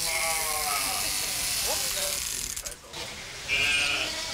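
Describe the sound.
Electric shears buzzing as a Heidschnucke sheep is shorn to a uniform short cut in a wildlife park: a steady mechanical whirr runs under a man talking, briefly dipping before resuming.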